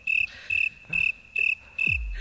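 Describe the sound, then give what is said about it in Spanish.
Crickets chirp in five evenly spaced, high-pitched pulsing bursts, loud and regular, with a low thump near the end. “los putos grillos me están... Son dolorosos, ¿eh? Los putos grillos.”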